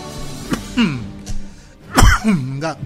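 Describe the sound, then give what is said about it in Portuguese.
A person chokes, with rough coughs and throat clearing mixed with strained voiced sounds. A heavier cluster of coughing comes near the end. “Me engasguei aqui, cara.”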